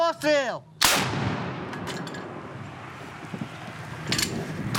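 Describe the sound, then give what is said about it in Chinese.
A recoilless gun fired by a Ukrainian mechanized brigade outside Bakhmut at Russian positions. After a short voice, one sharp, heavy blast rings out and decays into a long rolling rumble, with a smaller burst near the end. “这支驻防在巴赫姆特郊区的乌克兰机步旅，正在使用无后坐力炮向俄军阵地开火。”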